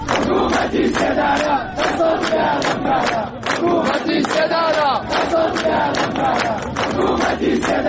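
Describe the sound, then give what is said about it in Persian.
A large crowd chants anti-government slogans at a funeral ceremony in Saqqez: loud, rhythmic, sustained group shouting with repeated phrases, continuous throughout. “شرکت کنندگان در مراسم روز شنبه شعار می دادند حکومت اعدام دست از جنایت ها بردار.”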